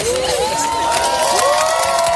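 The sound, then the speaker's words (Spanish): An audience cheers and applauds an accepted marriage proposal, a loud, steady crowd roar with shouts and whoops rising above it throughout. “con un público maravilloso y agradecido que aplaudió la respuesta.”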